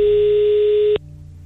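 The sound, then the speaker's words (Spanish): A telephone tone sounds while someone is being called: one steady tone with a buzzy edge, cut off abruptly after about a second and followed by a faint low hum. “Ahí estamos marcándole.”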